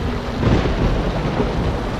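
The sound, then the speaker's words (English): Thunderstorm with rain and wind around a ship at sea: a loud, unbroken wash of rain and wind noise with low rolling thunder rumbling underneath throughout, and no voices. “I can see this storm does not seem to be letting up.”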